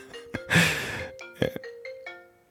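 A phone ringtone plays a short run of electronic tones that step between different pitches. Two brief noisy bursts are mixed in, and the tones are moderately loud with no talk.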